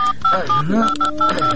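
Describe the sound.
Telephone keypad tones beep in a quick series as someone dials, several short bright tones over a wavering voice-like sound underneath.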